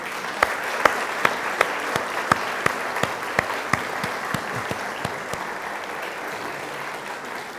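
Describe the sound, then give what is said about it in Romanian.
A church audience applauds a child with a steady, dense clapping that lasts several seconds, with sharp individual claps standing out from the wash. “Matei Ghica și te rog să-l arăți întregii biserici și să-l aplaudăm.”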